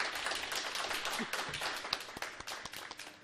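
Quiz show audience applauding a correct answer with dense, steady clapping that breaks into a few sharper, separate claps toward the end.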